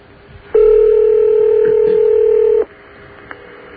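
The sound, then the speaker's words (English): Telephone ringback tone on a call to Ottawa, Canada: one loud, steady electronic ring lasting about two seconds, starting and stopping abruptly, with quiet line noise before and after. “Ottawa, Canada. It is ringing. That it is.”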